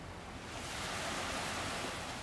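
Ocean waves in the Bahamas wash in a continuous, faint hiss of surf that swells slightly after the opening moment and then holds steady.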